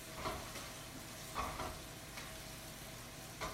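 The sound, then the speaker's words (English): Faint, soft sizzle of sauce simmering in a pan on medium heat: a steady low hiss broken by a few small bubbling bursts. “Just going to turn that down. All right, it's simmering.”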